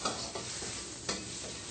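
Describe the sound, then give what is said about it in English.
Shiitake mushrooms stir-fry in a pan over medium-low heat with a steady, quiet sizzle, broken by a few brief scraping stirs. “And then we're gonna put the shiitake mushroom. Or any other mushroom that you like. Okay. Stir fry a little bit.”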